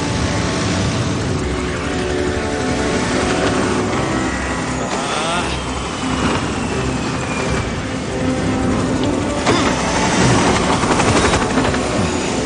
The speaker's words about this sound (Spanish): En el aire, el helicóptero sigue tratando de repostar sin éxito.